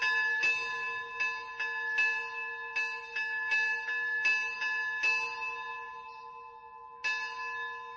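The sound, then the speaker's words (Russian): A church bell rung by a priest to summon Christians to a village church: many loud, regular strikes with long, bright humming overtones that overlap, a short lull, then one more strike. “Батюшка вышел и стал звонить в колокол, созывая христиан в церковь.”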